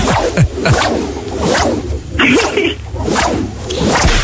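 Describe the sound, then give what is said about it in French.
Whip cracks from a PlayStation game: many sharp swishing lashes, each a quick whoosh ending in a snap, repeating at an uneven pace with loud, punchy hits. “il fait un gros coup de fouet et trois gifles”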